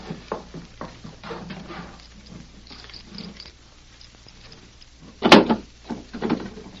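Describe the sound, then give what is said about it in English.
A safe door is opened under threat, with a few soft clicks and rustles followed by one sharp, loud clunk and a brief rattle. “Now, open that safe. Don't get any more notions of stalling or I'll fill you full of holes. Yes. I'll open it.”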